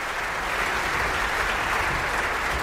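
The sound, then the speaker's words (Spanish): Audience applause for the Bayreuth Festival orchestra after a performance of Götterdämmerung forms a thick, continuous wash of clapping that stays even in loudness throughout. “Aplausos también, decía Clemens Nicol, para la orquesta, por supuesto, del Festival de Bayreuth.”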